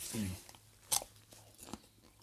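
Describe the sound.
Crisp bite into a fresh mini snack cucumber in a garden bed, giving one sharp crunch followed by a softer second crunch, with a brief vocal sound just before.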